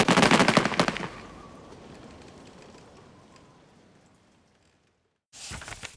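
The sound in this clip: A volley of gunfire fired on command, a dense crackling burst of many overlapping shots for about a second, trailing off into a long fading rumble, with another sharp burst at the very end.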